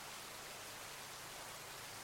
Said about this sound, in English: can you just focus on the sound of the rain? The beautiful sound of the rain.